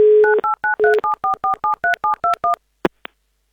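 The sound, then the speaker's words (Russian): Touch-tone beeps as a phone number is dialed to call a game-show contestant: many short two-tone beeps in a quick, even series, followed by a couple of sharp clicks. “Звоним Алексею.”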